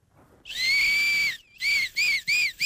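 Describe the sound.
A shrill reedy whistle blown on a maple leaf, like a grass-blade whistle, holds one long steady high note, then gives three shorter bursts in quick succession, bright with harmonics.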